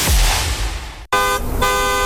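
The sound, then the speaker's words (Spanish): Tow truck arriving and honking its horn: a rumbling noise cuts off abruptly, then a loud, steady-pitched horn blast sounds with a short dip in the middle. “Tranquila, mija. Ya llegó la grúa para ayudarnos con el carro.”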